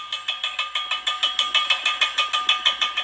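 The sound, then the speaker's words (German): Gas rattles through rusty production pipes at a gas well, sounding like empty cans clattering: fast, regular metallic clacks, about five per second, steady and fairly loud, with no talk. “Was sich anhört wie das Klappern von leeren Dosen, kommt mutmaßlich vom Gas. Das strömt offensichtlich noch immer durch die rostigen Förderrohre,”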